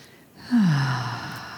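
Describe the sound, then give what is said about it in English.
A deep breath taken during a guided breathing and relaxation exercise: a soft airy rush with a brief voiced sigh that falls in pitch, then a long fading exhale, with no words. “And take another breath with me.”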